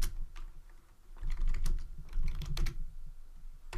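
Typing on a computer keyboard: quick, irregular bursts of crisp key clicks, with short pauses between runs and no voices.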